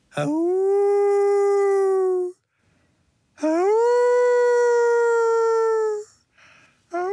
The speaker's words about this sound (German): Dieses Wolfsgeheul stammt nicht von einem Tier, sondern von Lorenzo